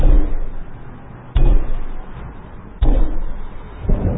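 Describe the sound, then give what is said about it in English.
Rocks dropped from hands hit the ground in three dull, heavy thuds spaced over a few seconds. Each strike is sharp at the onset and decays into a low, rumbling background. “and the rocks in their hands were dropped and hit the ground”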